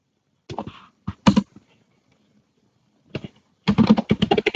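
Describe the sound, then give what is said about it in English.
Keys click on a computer keyboard as a username and password are typed: short bursts of crisp taps, a long pause, then a quicker run of keystrokes to finish. “And type in the username and password.”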